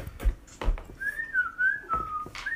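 A person whistles a wavering, tuneful line of high notes during a tabletop role-playing game, with the pitch sliding up and down across a few phrases and occasional low knocks beneath.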